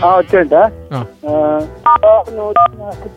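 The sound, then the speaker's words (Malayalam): Telephone keypad tones as *147 is dialed on a phone. Three short, steady beeps sound under a voice that talks throughout. “*147 ഒന്ന് press ചെയ്യ, press ചെയ്യ, ഫോണിൽ ഒന്ന് press ചെയ്യാം.”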